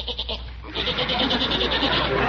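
A goat bleats while eating flowers in a flower garden, giving loud, quavering, pulsing cries in a rapid stutter, then a longer wavering bleat that runs on steadily.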